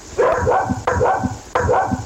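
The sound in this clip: A dog barking in three separate bursts at a regular interval, each bark sharp at onset with a short tonal tail, loud and alone.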